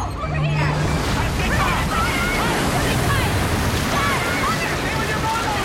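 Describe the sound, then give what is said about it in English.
Water spewing from a large pipe into a tank after a faucet is opened, a steady, loud rushing roar that continues without a break while voices are heard. “Dylan opens a faucet and water spews from a large pipe into the tank.”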